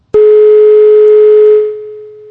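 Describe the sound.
A telephone tone sounds after a phone-in call cuts off: one steady, loud, mid-pitched tone that holds for about a second and a half, then drops to a quieter level and continues without any talk.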